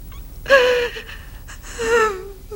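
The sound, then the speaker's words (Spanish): A young woman cries in two gasping, whimpering sobs with breathy, wavering pitched cries and shaky breaths between them. “No llores. Por favor, no llores.”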